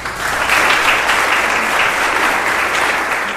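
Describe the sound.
Warm audience applause welcoming a Franciscan priest as speaker, dense and continuous clapping that holds steady without breaks.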